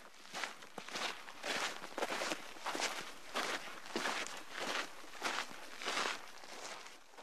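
Footsteps of a group of hikers walking past on a trail: many soft, crunching steps in an even rhythm, faint throughout, with no talk.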